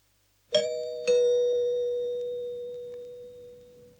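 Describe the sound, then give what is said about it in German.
A doorbell rings with two clear chime notes about half a second apart. Each is a bright, loud ding that hangs and slowly fades over several seconds in otherwise quiet surroundings. “es klingelt. Mach doch bitte auf.”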